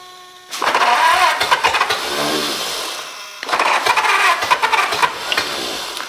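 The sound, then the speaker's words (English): A choked engine, with fire coming from its exhaust, catches and revs loudly in two rough bursts separated by a steadier, lower-pitched running stretch. “I believe it's starting that easy. I need to turn the idle up just a little. No way is it going to start that easy.”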